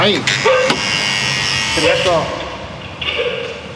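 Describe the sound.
A door entry buzzer sounds as a door is opened, a harsh, steady electric buzz that runs through the whole clip while voices speak over it.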